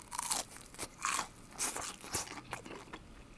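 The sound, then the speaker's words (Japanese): Several sharp, crisp crunches from bites into a golden deep-fried pork cutlet eaten plain, each bite a short crackling burst followed by quieter chewing. “この黄金色に神々しくカリッと揚がったとんかつ、うわ断面もすごく綺麗ですね。まずはそのままっていうんで、そのまま行ってみます。”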